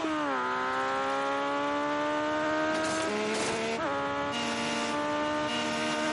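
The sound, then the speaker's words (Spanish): Motorcycles accelerate on their rear wheels during a chase in Mission: Impossible 2 (2000). A whining engine tone holds mostly steady, with a brief surge and shift in pitch midway. “Aceleran y se aproximan apoyados en la rueda trasera. La moto de Ethan sigue expulsando combustible.”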